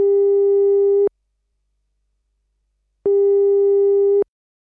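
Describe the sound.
Telephone line tone while a call is placed: two identical steady, low, pure tones, each about a second long, separated by two seconds of silence.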